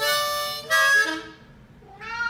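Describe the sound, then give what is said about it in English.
A cat meows a few times in a row, each call drawn out and fairly loud, with a quieter, lower stretch between the second and last meow. “Sing the blues with the cat.”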